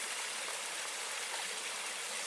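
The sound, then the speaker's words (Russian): A small stream of water flows through a redwood forest among ferns, a steady, even rushing trickle that holds the same level throughout with no voices. “Течет. Так вот она, водичка устроена, что течет.”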